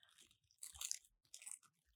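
Product packaging crinkles and tears as it is opened, in two short, quiet, crackly bursts separated by a brief pause.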